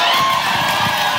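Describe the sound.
Cheers and joyful shouts rise from an audience at a Christian worship gathering, forming a loud, continuous wash of whoops and voices.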